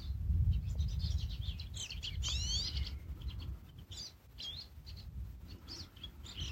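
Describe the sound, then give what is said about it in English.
Birds sing in scattered high chirps and quick trilling calls, fairly faint, over a soft, steady low background rumble. “And bring in the breeze, bring in the sunshine, calling in the sounds of the birds.”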